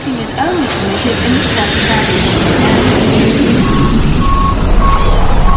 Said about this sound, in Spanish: La atmósfera sonora de un aeropuerto engorda.